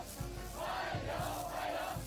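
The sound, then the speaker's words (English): Hundreds of young people waving flags and chanting at an official welcoming ceremony at Beijing Capital International Airport, a faint, rhythmic crowd chant that continues steadily. “The welcoming ceremony included a military honor guard, a military band, and hundreds of young people waving flags and chanting warm welcome.”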